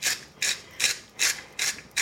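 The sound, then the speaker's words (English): A salt grinder cracks coarse sea salt in six regular, rasping ratchet bursts, each a short gritty crunch spaced evenly, with no voices. “I'm gonna use a coarse sea salt I happen to prefer. Just grind it in there.”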